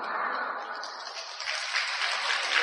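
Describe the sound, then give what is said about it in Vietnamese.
Applause from an audience at a religious gathering: a steady, fairly soft wash of clapping that continues throughout. “Vỗ tay cũng thấy nhỏ quá đi thôi.”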